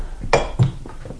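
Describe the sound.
Glassware clinks as a glass is poured in a staged radio drama: a few light, bright chinks follow one another over a soft background.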